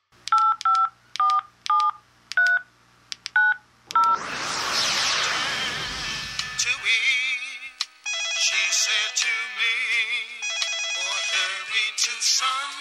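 Touch-tone dialing of a telephone number: a quick run of clear, evenly pitched beeps, then a burst of hiss and a long stretch of steady ringing tones on the line.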